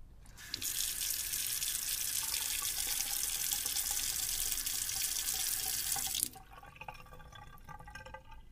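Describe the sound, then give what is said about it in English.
Tap water runs steadily into a sink during sink scrubbing, a loud even hiss that holds for several seconds, then cuts off abruptly near the end, leaving faint scattered drips. “Guess I'm stuck scrubbing sinks the rest of my life. Scrubbing sinks and toilets.”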